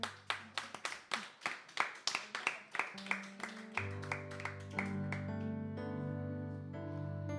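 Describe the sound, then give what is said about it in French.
Clapping from a church audience after prayer, a steady run of sharp claps in even rhythm that a swell of instrumental music and singing soon joins and covers. “On peut acclamer.”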